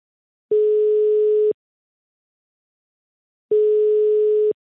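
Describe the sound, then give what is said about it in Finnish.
A telephone ringing tone sounds while a call is being placed: two steady, mid-pitched beeps, each about one second long, separated by roughly two seconds of silence, with no voices. “nythän soitetaan ihmiselle, joka siitä vastaa, nimittäin elinkeinoministeri Puistolle, Sakari Puistolle.”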